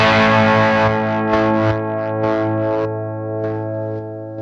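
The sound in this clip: A drive or distortion effect pedal, set between about 30 and 40 percent where the gain jumps sharply, produces a loud, buzzy, harmonically rich distorted tone. The tone is sustained, with several re-struck attacks, and no voices are heard.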